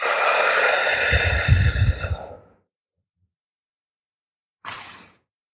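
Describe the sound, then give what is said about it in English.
A forceful exhale during a breathing exercise: one long, strong breath lasting about two seconds with a slight voiced edge, then silence and a second, shorter burst of breath. “So I'll exhale. I can't talk after I do this, so I'll just show you.”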